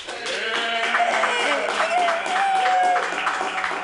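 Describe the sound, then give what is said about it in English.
Applause from an audience at an open-mic comedy night, voting for a performer's set. The clapping is dense and steady, with cheering voices mixed in throughout. “If you liked her set the best, please clap your hands together.”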